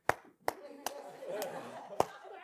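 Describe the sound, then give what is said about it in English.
Sparse, faint clapping from an audience during a religious talk: five isolated hand claps at uneven intervals over a low background murmur. “If you're going to clap, clap.”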